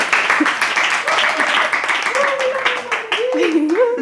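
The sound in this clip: Applause at an event: dense, continuous clapping from a crowd that holds steady throughout, with a voice audible above it.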